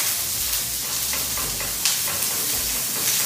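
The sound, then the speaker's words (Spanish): Precut onions fry in a pan while a spatula stirs them. A steady, loud sizzling hiss runs throughout, broken by occasional scraping clicks from the spatula. “Vamos a echarle unas cebollitas que ya tenemos precortadas, ok, Con mucho cuidado ahí. Vamos acá con nuestra espátula, vamos a ir meneándola, con mucho cuidado.”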